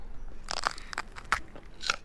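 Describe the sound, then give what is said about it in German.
Crisp crunching bites into a freshly harvested, home-grown long green pepper: a few sharp, crackly snaps spread across two seconds, each loud and brief, with no talk over them. “Du erntest jetzt? Eine lange grüne Paprika. Und wie schmeckt sie?”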